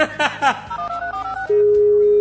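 Telephone tones as a call is dialed: a few short keypad beeps in quick succession, then a loud, steady, unbroken tone that holds to the end.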